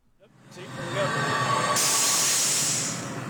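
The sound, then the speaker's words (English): A pneumatic controller on an oil field vents gas as a loud, steady hiss. The hiss builds over the first second, turns suddenly brighter partway through, then holds with a low rumble underneath. “That's the sound of a pneumatic controller in action.”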